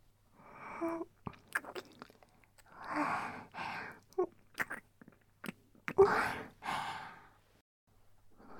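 Wet kissing and lip-smacking sounds come in a series of soft, breathy bursts, mixed with audible sighs and breaths, with short quiet gaps between them.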